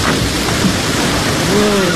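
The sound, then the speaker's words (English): A thunderstorm with heavy rain, a dense steady roar of rainfall with low rumbling underneath, continuous and loud across the whole moment, with a faint voice briefly audible near the end. “We'll sit the storm out under your rule.”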